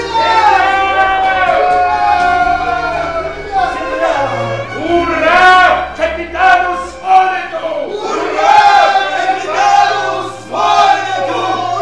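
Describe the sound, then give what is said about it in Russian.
A crowd aboard a ship at night shouting "hurrah" together, many voices raised in loud, hearty cheers that swell and break off in several waves. “Ничего не было странного в том, что все закричали «Ура!», но прозвучало оно так сердечно и дружно”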